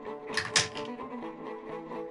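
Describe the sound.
Dice rolled at a tabletop role-playing game with many dice in play: a brief clatter of a few sharp, hard clacks near the start, then a low, steady background hum for the rest.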